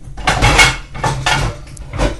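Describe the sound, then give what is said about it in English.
Pans clattering and banging in a crowded kitchen pan cabinet, a few loud metallic bursts in quick succession, with brief gaps between them. “The pan cabinet, which is also another enter at your own risk kind of thing, because they just don't like to stay in there.”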